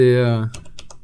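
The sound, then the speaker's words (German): Loud clacking of a computer keyboard, a few sharp, crisp keystrokes tapping out just after a brief voiced tone. “Na, ich find's auch geil, wie deine Tastatur so richtig schön klackert”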